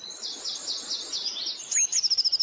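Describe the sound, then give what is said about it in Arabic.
Birds chirp in the morning with high, thin twittering calls that end in a fast run of repeated chirps. The calls are fairly soft over light background noise. “دي بقى الطيور اللي بتزقزق الصبح الجميلة”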